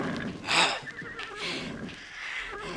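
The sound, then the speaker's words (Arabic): A horse neighing, one short, bright whinny bursting out near the start, then lower, busier mixed sounds continuing beneath it. “أنا الحصان. حصان.”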